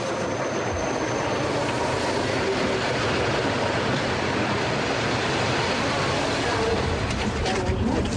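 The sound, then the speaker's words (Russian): An electric commuter train arrives at a railway station platform where people stand waiting. A steady, dense rumbling roar holds at an even level throughout, with no clear separate events. “Платформа железнодорожной станции. Стоят люди, подходит электричка.”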